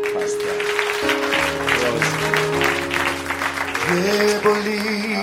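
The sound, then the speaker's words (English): Applause from a church audience, steady clapping filling the whole stretch over sustained musical tones. “A round of applause for”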